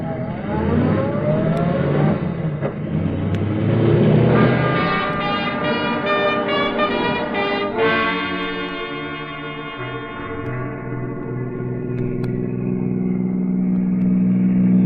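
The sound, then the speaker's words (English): A taxi car driving along, its engine giving a steady, continuous drone that holds through the whole stretch while tonal layers shift above it. “Taxi! Look, son, I want you to drive me out towards Arlington Park.”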